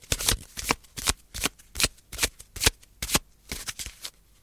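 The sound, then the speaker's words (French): Tarot cards shuffled and drawn one by one: many quick, crisp papery flicks and riffles in an uneven rhythm, each a sharp burst, heard alone with no talk. “Je vais donc tirer les cartes une par une.”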